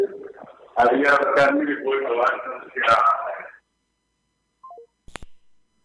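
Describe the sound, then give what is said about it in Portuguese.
A phone call dropping during a radio interview with a caller in transit: a voice speaking over the phone line cuts off abruptly, and after a short silence come three brief beeps stepping down in pitch and a sharp click. “Bom, já estava finalizando, caiu a ligação, né? Ele está no transporte.”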